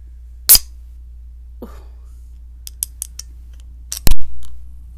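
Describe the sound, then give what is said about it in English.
A can is opened: a sharp click comes first, then a few faint ticks, then a loud crack as the tab breaks the seal, followed by a short hiss of escaping gas that quickly fades. “hold on, I'm going to open up this can. Listen.”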